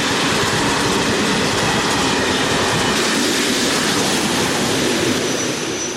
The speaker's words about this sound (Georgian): მატარებლის თვლებმა გაისრიალა რელსზე